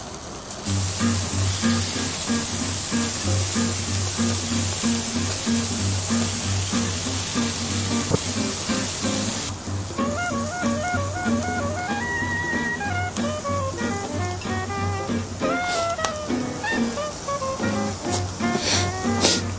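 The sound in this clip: Meat sizzling on a grill: a loud, steady crackling hiss that lasts throughout, with music joining partway through.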